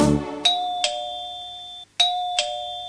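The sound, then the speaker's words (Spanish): A doorbell rings with a two-tone ding-dong chime, high note then lower, sounded twice with a short pause between. Each pair gives four bright, ringing strikes in total, clear and alone with no voices. “¿Qué es? El timbre alguien tocó. ¿Qué es? Mi amigo que llegó.”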